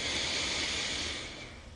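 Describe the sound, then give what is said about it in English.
A long, deep inhale through the nose: a steady, breathy hiss that runs unbroken and fades slightly near the end, with no voices over it. “On a count of three, taking a deep inhale. One, two, three. Deep inhale.”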